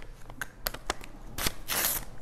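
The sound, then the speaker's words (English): A paper list of sins being torn up by hand, a few quick short rips followed by a longer, fuller tear, fairly faint with no talk. “once I've made a list of my sins, I need to tear this up. I just need to tear it up.”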